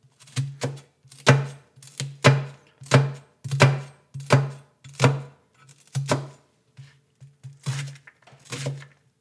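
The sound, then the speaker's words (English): Knife finely dicing an onion on a board, making many crisp thunks in an uneven rhythm, some single and some in quick pairs, with no one talking. “dicing it very finely.”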